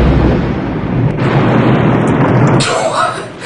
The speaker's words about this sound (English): So I guess the British guy and the grenade are still in her mouth, and yet somehow she doesn't choke to death, as Quaid uses it to blow up the shark for good.